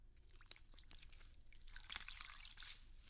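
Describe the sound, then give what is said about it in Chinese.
Water dripping and lightly splashing during a bath, faint and soft: scattered small drips and patters build into a brief cluster of wetter splashes near the end. “在给你洗澡呢”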